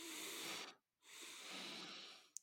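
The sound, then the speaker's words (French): Two breathy inhalations in a double-inhalation breathing exercise, split by a short silent pause. The first draw is brief and the second is longer and steady, ending with a quick sharp puff of air. “Donc on va faire double inspiration.”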